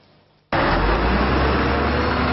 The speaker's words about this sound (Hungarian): Egymás után indultak a buszok a Bosnyák téren reggel, minden a menetrend szerint működött.